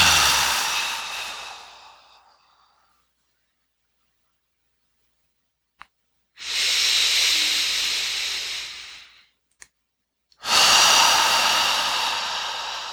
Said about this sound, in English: go ahead and inhale up from that, from the earth, and then exhale.